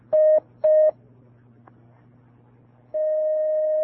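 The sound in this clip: Telephone dialing on a phone-in call: two short, loud, identical dial beeps, a brief pause with faint line noise, then a steady sustained tone as the call connects.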